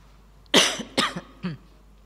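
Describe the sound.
A person coughs in front of an audience during a philosophy lecture. There are three rough, breathy coughs in about one second. The first is the loudest, and the last is shorter and weaker.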